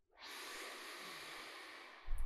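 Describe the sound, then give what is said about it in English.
A big deep breath drawn in through the nose, a steady airy hiss lasting about two seconds that ends in a short, louder rush of air. “So the first thing I would invite you to do is just take a big deep breath with me.”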